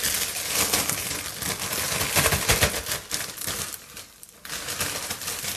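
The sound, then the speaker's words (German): A plastic freezer bag crinkles and rustles as pieces of meat for curing are put inside. The rustling is dense and continuous, dips briefly, then picks up again. “Okay, und das Ganze kommt jetzt in meinen Gefrierbeutel hinein.”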